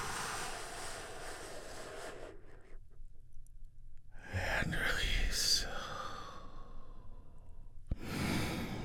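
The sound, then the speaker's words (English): A big, deep breath: long airy breathing noise in two breathy swells with a quiet pause between them and a short rush at the end, all low in level. “We do that by taking a big, deep healing breath all together. Here we go.”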